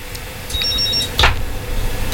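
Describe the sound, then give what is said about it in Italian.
A telephone rings with an incoming call: a short, fairly faint, high electronic tone followed by a brief burst, over steady background noise with no talk. “Ecco, abbiamo una chiamata.”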